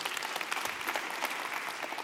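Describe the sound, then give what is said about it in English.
Audience cheering and whooping in a loud, dense burst that carries on without pause, cued to welcome a mention of baseball and the Field of Dreams film. “Now, give a little woo-woo. Yeah, there you go.”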